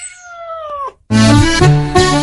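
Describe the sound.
A cat in a cat café gives one clear, drawn-out meow that dips slightly in pitch at the end, followed by a short pause and then the start of loud music.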